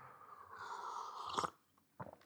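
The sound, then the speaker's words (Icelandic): Sipping coffee from Reykjavík Roasters: a faint, drawn-out slurping sip that cuts off sharply, followed after a brief pause by a short, soft gulp. “einmitt hér er ég að drekka kaffi sem ég sótti mér um e, frá Reykjavík Rósters”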